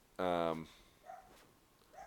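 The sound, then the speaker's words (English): A dog barks at home, giving one loud, harmonic-rich bark followed by fainter, brief sounds over quiet background noise. “Maybe you can hear the dog barking.”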